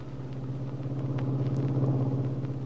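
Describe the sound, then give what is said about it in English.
A car drives along a street toward a big house on 11th Street, its engine giving a steady, even low rumble that carries on without a break and with no voices. “Later, as Ben drives toward the big house on 11th Street.”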